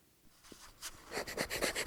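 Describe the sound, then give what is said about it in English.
Pencil rubbing on paper laid over the small metal plate of an MG car: quiet scratchy strokes, sparse at first, then a fast rhythmic run of back-and-forth scrapes. “Go on, get a bit of rag and rub that little plate and then do a rubbing with that paper and pencil you're on about.”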